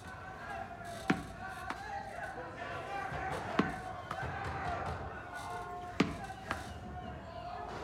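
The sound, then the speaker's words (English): A dirty tennis ball is bounced on a floor, giving six sharp thumps that fall in three pairs and are spaced well apart over a quiet background. “T picks up the dirty tennis ball that's sitting on the minimal shelf on the wall between the beds, holds it for a moment, then starts to bounce it on the floor.”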